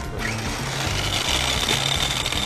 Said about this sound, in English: Grind some pork up. And you put it in together and you mix it by hand.